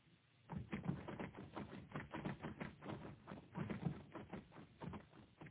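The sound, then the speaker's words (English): Rapid typing: many dense, crisp key clacks in a continuous run, fairly faint and with no talk. “He's typing.”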